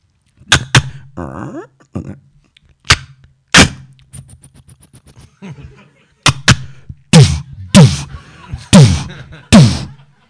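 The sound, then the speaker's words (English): A person vocally imitates a silenced Walther PPK 9mm automatic pistol, producing many sharp, loud mouth pops and spitting bursts in irregular clusters, separated by brief pauses and faint hissing. “this is the first murder is a Walther PPK 9mm automatic pistol with silencer.”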